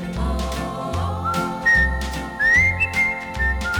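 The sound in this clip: Someone whistles a tune in bright, clear notes that glide between pitches, over a rhythmic musical accompaniment.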